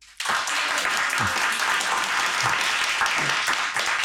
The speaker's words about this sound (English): Well, as you can hear, there's an audience here in the shop